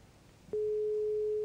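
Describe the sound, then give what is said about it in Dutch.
A telephone tone heard while placing a call: a steady single-pitched beep starts after about half a second of quiet and holds unbroken to the end. “Bel hem op en anders als die voicemail is gewoon inspreken. Ja, hij gaat over.”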